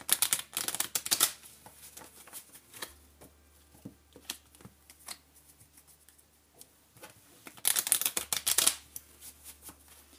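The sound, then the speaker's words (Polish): Tarot cards being shuffled: two dense bursts of rapid, crisp riffling clicks, one at the start and one near the end, with sparse softer taps and shuffling in between. “Teraz potasuję karty wskazówki.”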